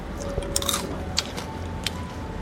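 Crisp crunching as someone bites into Japanese rice crackers (senbei) from a shop stocking dozens of kinds. A few short, dry, brittle cracks stand out over a steady low background hum.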